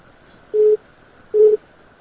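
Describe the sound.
Telephone call tones come as two identical short, mid-pitched beeps, evenly spaced and each lasting about a quarter second. They sound alone over a faint background hiss.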